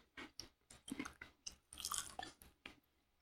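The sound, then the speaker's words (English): Food chewed during a hot sauce challenge: many wet, crunchy bites and squishy chews in an uneven rhythm, close and fairly loud, with short pauses between them. “It's lots of chewing sounds for the podcast.”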